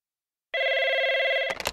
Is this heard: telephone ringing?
yes